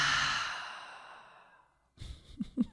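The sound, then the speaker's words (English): A full breath with a long, breathy exhale that starts strong and slowly trails off into silence. A few brief soft sounds follow at the end. “So I want to take just a breath right now. Let's take a full inhale and a full exhale.”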